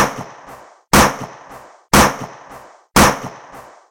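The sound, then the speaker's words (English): Four sharp handgun gunshots firing armor-piercing rounds, evenly spaced about a second apart, each a loud crack with a short decaying tail before the next shot. “The shots do considerable damage. Armor-piercing rounds.”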